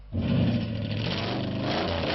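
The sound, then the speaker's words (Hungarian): A tuned 1975 Ford Mustang with a special gearbox and rebuilt engine block, at an American car meet in Debrecen, gives a loud, steady, deep engine roar that starts abruptly and holds without letting up. “Ilyen a hangja egy feltuningolt 1975-ös Ford Mustangnak. Ebbe a négykerekű kedvencbe speciális váltót tettek, és átépítették a motorblokkot is.”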